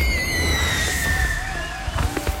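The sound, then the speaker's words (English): Fireworks at a pre-Fourth of July demonstration show give off several whistling streaks that fall in pitch over a steady roar, then a few sharp crackling pops near the end. “Enjoy the annual pre-4th of July demo night fireworks show and customer appreciation event at Pyroholics just off the Coleman exit.”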